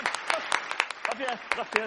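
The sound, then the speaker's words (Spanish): Studio audience applause for a guest on a television show, a moderate burst of clapping with talking heard over the claps. “Don Javier Santa Marta del Pozo, te has ganado el aplauso de nuestro público, por Dios, favor.”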